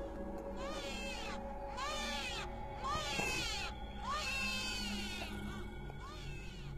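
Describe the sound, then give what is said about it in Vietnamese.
A newborn baby cries in a series of wavering, high-pitched wails, each rising and falling, over a continuous noisy background. “Mơ hồ trong không gian lại vang lên tiếng khóc của trẻ sơ sinh.”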